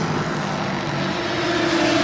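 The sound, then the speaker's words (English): A Porsche sports car race engine held on the pit limiter during practice, giving a steady, fairly quiet droning hum over broad rushing noise, with a low tone steadying toward the end. “Porsche on the pit limiter. That's the plaid Porsche. Very quiet.”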